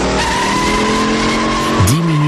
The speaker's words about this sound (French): Une rugissante Ford Mustang talonnée par une vrombissante Dodge Charger.